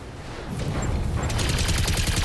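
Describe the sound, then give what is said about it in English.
Machine gun fire from a mech's guns during a melee attack in a video game: a dense, rapid, continuous rattle of shots that stays loud and steady throughout. “Let's hit the Shadowhawk with a melee attack, which will also fire the machine guns.”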